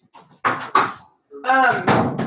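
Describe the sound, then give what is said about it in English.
A door being shut with a quick thud and a sharp latch knock, followed by a person talking. “I'm going to close this door real quick.”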